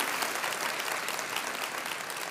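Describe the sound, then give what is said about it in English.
An audience applauds to welcome a campus pastor to the stage. The clapping is dense and sustained at an even loudness from start to finish, with no voices standing out. “will you please put your hands together to welcome to the stage your campus pastor”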